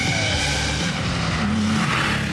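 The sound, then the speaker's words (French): A car with a 3.2-litre engine and a non-original exhaust accelerating, giving a loud, continuous engine roar with a rough, raspy exhaust note that wavers in pitch. “Alors le moteur c'est quoi là ? On est sur une base 3.2, un 3 litres. 3 litres 2, ouais. Et pour les détails, bah t'accélères et tu regardes si ça te plaît.”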